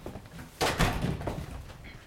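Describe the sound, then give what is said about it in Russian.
Front door being opened: a dull thunk of the door mid-clip, with a faint rattle trailing after it over low background noise. “Лиан открывает входную дверь.”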